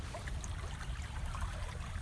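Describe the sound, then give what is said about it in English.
A small stream flowing into a larger stream in the middle of a receded lake bed, giving a steady, low rushing and trickling wash with a deep rumble beneath and no break in the sound; no voices. “The lake has receded extremely, and I'm standing at the convergence of a small stream coming into the larger stream.”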